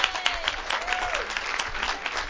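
Audience applause and cheering approving a proposal by acclamation: dense, steady clapping throughout, with a few rising and falling whoops riding over it.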